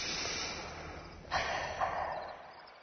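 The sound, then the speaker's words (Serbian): Two sharp, snort-like breaths, a voice imitating someone breathing by a window, come in quick succession after a quiet stretch, each a short hissing rush over low, faint background noise. “Čuj, čuj. Neko diše, baš ovako.”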